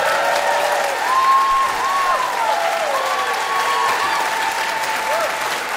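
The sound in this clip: Audience applause after a live song at a Winnipeg concert, loud sustained clapping with a voice rising over it throughout.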